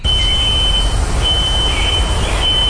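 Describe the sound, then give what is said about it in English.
A smoke detector keeps sounding after a three-alarm fire that spread through adjoining row houses. Its steady, piercing high tone runs nearly unbroken over loud, rumbling background noise. “That is the sound of a nearby smoke detector still going off this morning.”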